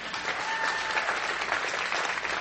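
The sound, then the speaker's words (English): Audience applause, with many hands clapping in a dense, continuous patter that stays even in loudness from start to finish. “Can we clap for her?”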